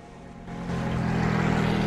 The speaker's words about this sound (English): A motorboat churns up the sea.